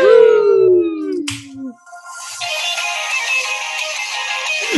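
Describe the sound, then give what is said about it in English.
New intro music for a show plays loudly, opening with bright synth tones that glide downward. After a brief dip, a dense, shimmering, noisy section with sustained tones carries on to the end. “Okay, turn that off. New intro music.”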